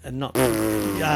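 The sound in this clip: A dog passing wind, heard as a single loud, buzzy fart that holds steady for most of a second, right after a brief spoken exclamation.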